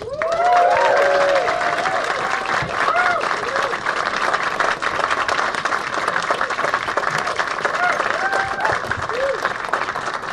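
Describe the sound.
Audience applause welcoming the President of Ireland, Catherine Connolly, at an event in Barcelona: dense, loud, steady clapping sustained throughout, with a few whistles and cheers rising over it early on.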